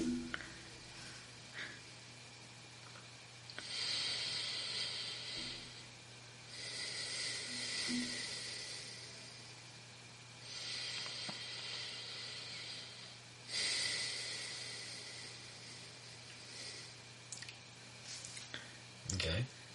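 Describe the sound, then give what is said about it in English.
Deep breaths out through the left nostril make several long, airy hisses of a few seconds each, separated by short pauses, over a steady low hum. “Now, breathe out three deep breaths out of your left nostril.”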